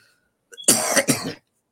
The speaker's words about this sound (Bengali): আমি খুব দুঃখিত আমার কাশি হওয়ার কারণে